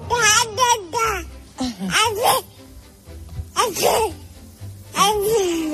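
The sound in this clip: A baby babbles in a string of high, sliding vocal bursts that glide up and down in pitch. Short pauses separate the bursts, and the baby sounds like a small, precocious singer.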